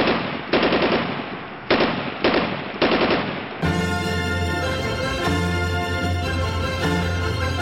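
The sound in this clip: Machine gun fire sound effect: several rapid, loud volleys with brief gaps between them, then music takes over and the firing stops.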